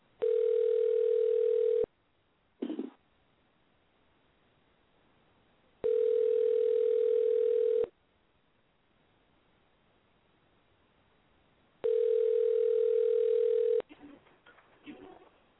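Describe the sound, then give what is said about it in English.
A telephone ringback tone sounds while a call is being placed. It plays as three steady, even-pitched tones of about two seconds each, separated by silent gaps of roughly four seconds. A brief click follows the first tone, and faint rustling comes at the end. “And we're dialing.”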